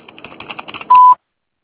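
Voicemail tone before recording a message: a rapid run of light clicks like keypresses, then one short steady beep, followed by silence.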